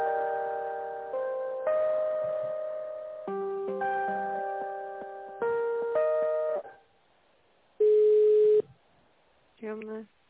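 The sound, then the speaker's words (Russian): A telephone call being transferred to reception: a synthetic hold melody of sustained electronic notes, a pause, one long steady tone, then a short buzzy tone on the line. “Сейчас приемное соединю, минутку.”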